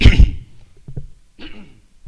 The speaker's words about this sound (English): I'm not used to doing a lot of singing. I've been doing singing now. Praise the Lord. I had to clear my throat.